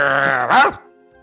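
A dog makes a single brief groaning whine with a wavering pitch that swells, then quickly fades out.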